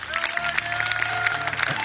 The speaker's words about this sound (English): You made an effort to come out. We just applaud you. Give all these people a big hand.